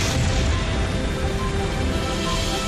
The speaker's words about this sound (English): Blast off!